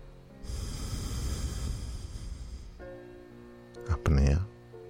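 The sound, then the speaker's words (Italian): A long, steady exhale through the left nostril during alternate nostril breathing makes a soft, airy hiss lasting about two seconds. A brief, louder voiced sound follows near the end. “inspiro con la destra, chiudo la destra apnea, apro la sinistra, espiro”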